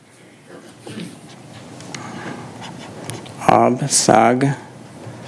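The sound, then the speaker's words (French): A sign being handwritten, heard as soft scratchy pen strokes over a light background hiss, followed by a short stretch of voice. “Et je vais écrire le signe Galta.”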